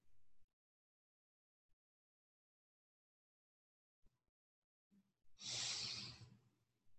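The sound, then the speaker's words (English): A deep breath drawn in and slowly let out, a soft airy rush lasting about a second that trails off, preceded by a brief faint breathy sound and quiet pauses. “Okay, nice deep breath ah, as we slide into something new today.”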